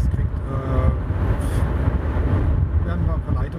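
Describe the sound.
Low, steady engine rumble of a restored older car with a historic registration, driving straight along a road, with muffled voices underneath.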